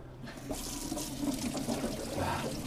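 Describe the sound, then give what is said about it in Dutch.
Water runs from a tap as someone washes their hands, a soft, steady splashing rush that continues throughout without talk. “Ik ga even mijn handen wassen even.”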